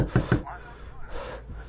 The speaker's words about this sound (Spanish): Lo escucho golpear aún más fuerte contra la madera.